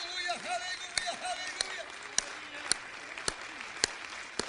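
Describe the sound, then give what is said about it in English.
An audience stands and claps hands in praise during a church service, sharp claps landing in a steady, regular beat under voices that carry on throughout. “Let's stand and clap our hands for the Lord right now, shall we?”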